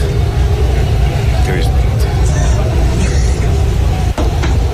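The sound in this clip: Loud, steady rumble inside a moving team bus near the Camp Nou stadium, a dense roar of mixed voices over the continuous noise, with a few sharp knocks.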